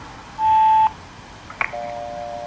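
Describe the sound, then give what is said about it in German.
An answering machine's beep tone sounds as a single steady, fairly loud beep of about half a second. A couple of faint clicks and a quieter sustained tone follow. “Wir haben aber nach dem Signalton die Möglichkeit, Ihren Namen und eine Nachricht zu hinterlassen.”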